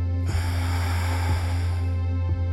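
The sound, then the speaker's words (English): A deep breath is let out during a guided breathing exercise: one long, airy exhale that rushes steadily for about two seconds over a constant low hum. “Take a deep breath in and hold it and let it out”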